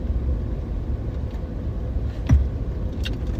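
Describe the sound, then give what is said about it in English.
A car drives down a street toward a marina, giving a steady low engine and road rumble with one brief thump partway through. “Right now I'm driving down the street.”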